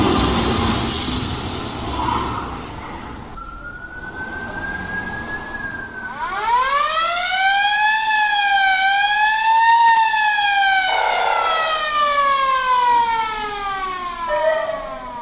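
Emergency vehicle sirens at an ambulance rescue demonstration: a steady tone first, then a loud wailing siren that slowly rises and falls, with a second siren joining later over background noise.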